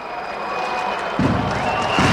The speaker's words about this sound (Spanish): Aplaude el equipo de Vilna, de la capital lituana.